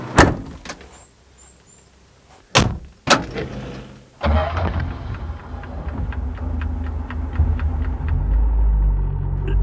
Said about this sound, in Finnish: Nyt paikka luukun kiinni. Nyt mä suljen. Sormet pois, ettei jää väliin.